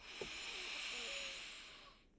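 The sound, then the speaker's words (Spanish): A slow breath in through the nose and out through the mouth during a guided mind-detox meditation, a faint, soft airy hiss that swells and fades over a couple of seconds. “Inhala por la nariz y enseguida suelta por la boca.”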